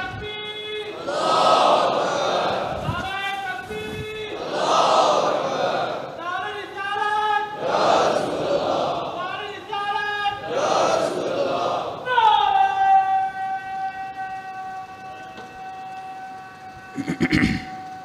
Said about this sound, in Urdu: اتنا بڑا نعرہ وہی لگا سکتا ہے جسے کرونا نہ ہو.